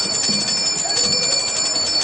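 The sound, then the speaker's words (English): A golden bell rings with a bright, shimmering sustained tone that stays loud and steady for the whole short clip. “One of the elves rang a golden bell.”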